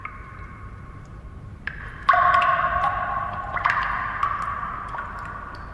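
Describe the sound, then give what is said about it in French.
Water drops dripping: a few clear, ringing plinks, each with a short resonant tail. They start faint and become louder and closer together toward the middle, with no voices over them. “Ferme les yeux et écoute-moi ça. On dirait quoi? Une goutte Une goutte.”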